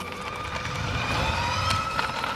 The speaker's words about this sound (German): So klingt die nächste Generation Motorball. In Kuppenheim bei Karlsruhe trainieren Kinder auf Elektromotorrädern.